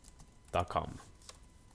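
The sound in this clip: Typing a web address on a computer keyboard: a few faint, light key clicks, briefly under a soft voice.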